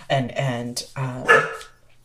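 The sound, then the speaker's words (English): A dog barking, a few short, harmonic barks in quick succession, fairly loud and tonal, with the last bark trailing off. “hello, puppy”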